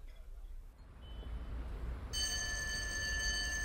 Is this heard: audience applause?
no